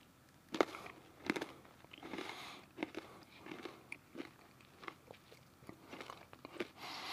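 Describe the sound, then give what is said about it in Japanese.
Crunchy chewing of yogurt mixed with banana chips and dried fruit: many soft, irregular bites and crunches, faint and close, with no talk. “ちょっともう贅沢にバナナチップとかドライフルーツが混ざり込んでるところをすくっていただきます”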